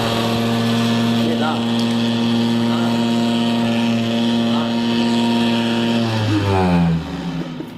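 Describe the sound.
A vibrating ride-on machine with adjustable vibration hums in a loud, steady, tonal drone that holds for several seconds, then slides down in pitch near the end.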